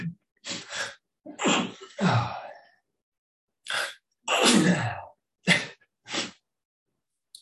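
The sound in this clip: Sneezing from a person with seasonal allergies: a series of sharp, breathy bursts with sniffs and gasping intakes between them, fairly loud, with no talking.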